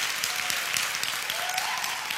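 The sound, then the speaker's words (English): Church audience clapping their hands in praise during a service, a dense, steady wash of applause that holds at an even level throughout. “Come on, give Jesus a hand clap of praise, will you? Come on, give Jesus a hand clap of praise.”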